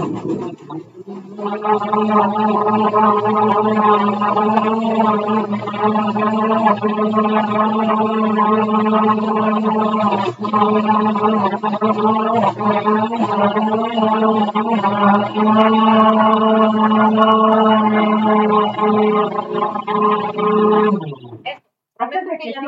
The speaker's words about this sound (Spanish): Bueno, voy a licuar, voy a hacer ruido.